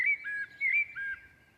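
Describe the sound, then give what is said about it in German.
A blackbird sings slow, fluting whistled notes, a few short phrases at a mid-high pitch separated by brief pauses, faint and heard alone. “Also dieser festliche, schöne Gesang, der so langsame Töne hat, der so fast wie eine Kirchenmusik klingt, das ist eine Amsel.”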